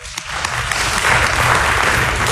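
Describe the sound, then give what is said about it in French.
Audience applause greeting an introduced guest at a public talk: dense, many-handed clapping that stays loud and steady, swelling slightly midway and continuing to the end. “Qu'on peut applaudir.”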